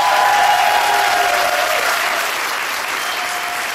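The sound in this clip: Studio audience at a song contest applauding: a dense, steady wash of clapping that holds for the whole stretch and eases slightly toward the end.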